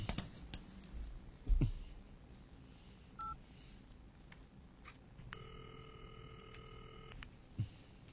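A telephone is dialed for a call, with a few faint scattered clicks and a short pair of dial-tone beeps, followed by a long, steady ringing tone. The whole sequence stays quiet.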